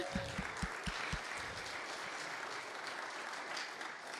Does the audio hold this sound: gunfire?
no